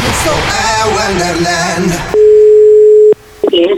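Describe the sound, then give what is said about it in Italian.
Telephone dial tone as a call is placed to someone at home. A loud, steady single tone holds for about a second after a stretch of talking, then gives way to a few brief, broken sounds. “chiamiamo la gente a casa”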